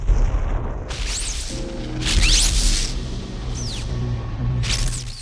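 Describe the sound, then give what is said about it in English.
A fire flaring beside a temple in a vast underground cavern: a deep, continuous rumbling roar that swells in waves, overlaid with hissing bursts and several swooping high whistling tones. “A fire flares beside the temple.”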